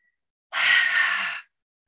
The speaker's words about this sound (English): Let's just take a deep breath, inhale through the nose and exhale out through the mouth.